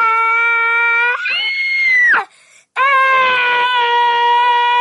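A person screams loudly in two long, sustained high-pitched wails separated by a brief break, the first shifting upward partway through before cutting off.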